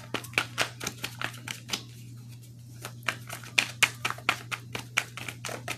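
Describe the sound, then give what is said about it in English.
Cards from a deck of nearly 100 being shuffled and spread out: many quick, crisp snaps and flicks in an uneven rhythm with one brief pause, over a steady low hum. “it's almost 100 cards in here, so I'm spreading out to make sure ain't nothing flipped over inside while I was shuffling here.”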